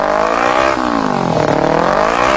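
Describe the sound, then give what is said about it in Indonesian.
A motor vehicle's exhaust revs loudly, a buzzing engine drone whose pitch dips and climbs several times with no pause. “Suara knalpot kendaraan yang terlalu bising tentu sangat merugikan,”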